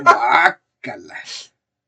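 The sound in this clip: A person clears their throat in two rough, raspy bursts. The first is louder and longer, the second weaker and broken up, and silence follows.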